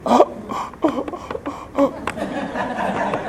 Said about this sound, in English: That was people grasping for breath that tuned into the podcast.